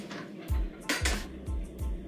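A cutting board clatters as it is handled in a kitchen, giving four hard, hollow knocks at a steady rhythm with faint ringing between them.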